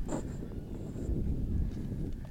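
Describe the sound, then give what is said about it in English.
Wind buffets the microphones at an outdoor women's football match, making a steady low rumble throughout, with faint higher noises above it. “You can hear the wind pick up on our microphones here.”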